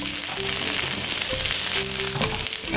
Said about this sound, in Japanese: ちくわだけを少し軽くですけれども炒めます。でその後さやえんどうとかピーマンとか他の野菜をちょっとさっと入れます。